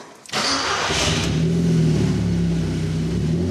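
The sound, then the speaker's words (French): Audi TT engine during a power test, starting abruptly after a brief quiet moment and then holding a loud, steady drone with strong low harmonics and only slight shifts in pitch. “Alors voyons ce que développe l'Audi TT de notre ami.”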